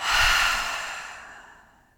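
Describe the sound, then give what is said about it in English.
A deep clearing breath during a breathing exercise, heard as one long, soft exhale through the mouth that starts full and slowly fades to nothing over about two seconds. “Taking a deep inhale in through the nose and out through the mouth.”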